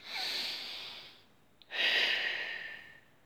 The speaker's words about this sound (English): and another breath. And another breath.